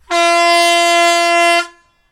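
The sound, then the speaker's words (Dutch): A vehicle horn sounds one long, loud, steady blast lasting about one and a half seconds, then cuts off and fades to silence. “Maar speciaal voor deze ga ik even toeteren, jongens. Ja, doe even toeteren.”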